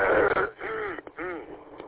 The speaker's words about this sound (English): Still can't get this frog out of my throat.